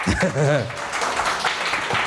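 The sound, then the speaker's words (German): An audience at a stage show applauds the jury. A voice speaks briefly, then a wash of steady clapping continues to the end. “Applaus für das Jury.”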